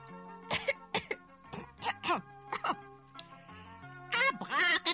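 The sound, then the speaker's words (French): A woman clearing her throat in a run of short, rough, voiced bursts with uneven pauses between them, growing louder and harsher at the end. “Elle s'éclaircit la gorge et lut à haute voix.”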